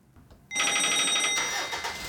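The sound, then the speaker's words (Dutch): A car's hands-free phone plays its calling tone after a short quiet start: a bright, steady tone that shifts partway into a busier, pulsing ring, with no talk. “Ik moet tegen mijn auto zeggen, bel Henk Eggens. Eggens? Eggens, op zijn Engels. Dan snapt hij het wel. Maar ik ga even bellen met Henk Eggens.”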